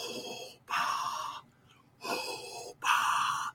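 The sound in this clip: A person imitates Darth Vader's mechanical breathing: four long, hissing, wheezy breaths alternate inhale and exhale in two pairs, each roughly half a second or more, separated by short pauses.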